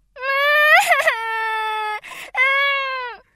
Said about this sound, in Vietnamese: Bỗng con Hiền khóc òa lên. Nước mắt, nước mũi ở đâu có sẵn mà ràn rụa cả mặt.